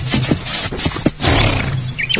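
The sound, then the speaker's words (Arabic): Horse sounds as the animal is brought to be watered: several short, sharp bursts over a steady, low, rumbling noise. “اسمحولي نسقي الحصان. أشرب أنت وحصانك بالشفي والهني.”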